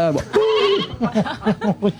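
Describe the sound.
A voice imitates a sheep bleating: one long, wavering, nasal note, then a quick run of short, pulsing bleats.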